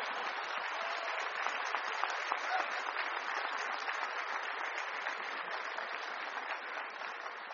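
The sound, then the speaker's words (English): Audience applause from a crowd at a graduation ceremony, a steady, dense wash of clapping that holds at an even level for several seconds with no voices over it. “And our nation, go ahead and clap for that. That was a good one.”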